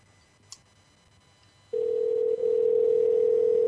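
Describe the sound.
A telephone dial tone sounds as a call is placed. After a quiet stretch with one faint click, a steady single-pitched hum starts and holds unbroken and loud to the end.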